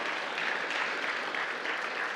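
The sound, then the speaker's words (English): Church attendees give missionaries a round of applause during a service, a soft, continuous patter of many hands clapping at an even level. “And let's give our missionaries a round of applause.”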